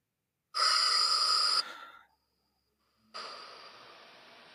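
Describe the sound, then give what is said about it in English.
A deep breath in and release: a strong, breathy inhale of about a second and a half, a pause of roughly a second, then a softer, airy exhale that continues to the end. “And now just taking a deep breath in and release.”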